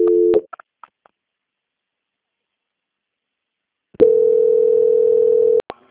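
Telephone tones during a call transfer: a short tone at the start, a pause of silence, then a loud, steady single-pitch tone that holds for nearly two seconds before cutting off.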